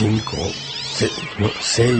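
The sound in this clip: Cats yowling and caterwauling in harsh, wavering screeches, five to seven cats chained together and burning in a side garden. Several loud, drawn-out cries follow one another, their pitch rising and falling.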